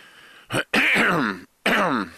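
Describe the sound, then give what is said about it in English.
A person clears their throat in three rough, voiced bursts, a short one followed by two longer gravelly rasps. “Again, I apologize for clearing my throat. I shouldn't, because it'll be worse if I don't clear it.”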